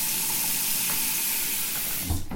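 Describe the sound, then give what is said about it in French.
Tap water runs steadily while hands are washed, giving a continuous, even hiss that stays at a constant level throughout. “il faut se laver les mains.”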